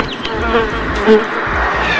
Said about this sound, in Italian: Azzacca, accecata la mosca col ventaglio!